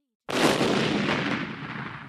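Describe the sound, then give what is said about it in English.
A cannonball explosion in a Treasure Island battle bursts suddenly and loudly, then holds as a broad, roaring rumble that slowly fades over about two seconds. “Then a cannonball exploded near us,”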